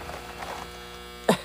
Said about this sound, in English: I'm so sorry if you had headphones in. That's my washer going off.